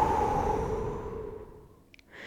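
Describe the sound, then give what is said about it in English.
A long breathy exhalation after a held breath during a breathing exercise: a soft rush of air that starts fairly strong and slowly fades away. “Two inhales through the nose. Hold it. And exhale.”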